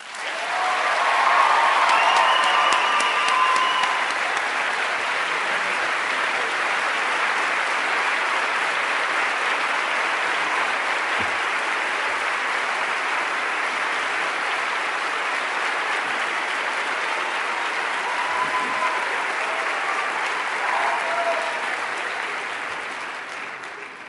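Audience applause welcoming a campus chaplain to the stage for his last official address, a steady, sustained clapping from a crowd that holds evenly for the whole stretch before tapering off at the end.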